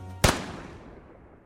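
A single gunshot rings out in a zombie-themed audio drama: one sharp, loud crack that cuts through a low hum and leaves a long, fading tail, with no voices over it.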